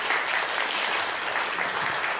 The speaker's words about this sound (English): Yeah, give them a round of applause.